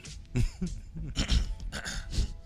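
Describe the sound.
Someone clears a tickle from their throat, making a few short, rough, voiced bursts in quick succession at moderate loudness.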